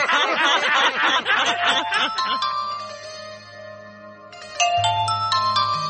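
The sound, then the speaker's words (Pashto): Electronic telephone ringtone in a Pashto radio comedy sketch, steady chiming tones that break into a brighter ding-dong pattern near the end, after laughing voices at the start. “اوهو دا تلیفون بیا د کمه راغلو”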